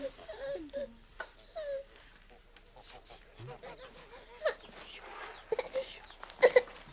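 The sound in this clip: A teething baby cries and whimpers faintly in broken, uneven bursts, with short wails and babbling sounds scattered between quieter moments.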